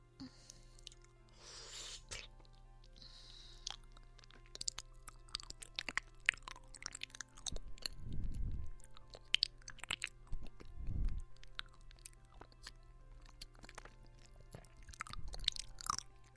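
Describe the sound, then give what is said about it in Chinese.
Food eaten in small bites, heard as many quiet, irregular crunches, bites and moist chewing sounds spread throughout, with a few softer low thumps between them and no talking. “一小口一小口的吃”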